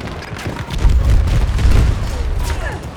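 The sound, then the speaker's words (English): A grenade from the character Sundance explodes in a video game, a deep rumbling boom that swells and lingers for over a second, with voices talking over it. “use uh, Sundance's grenade.”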